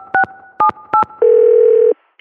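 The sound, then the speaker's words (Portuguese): Telephone dialing to reach a city public works department: three short two-tone keypad beeps at an even pace, then a longer steady tone that cuts off sharply. “mas é agora que eu vou ligar pras obras e dar um jeito nisso.”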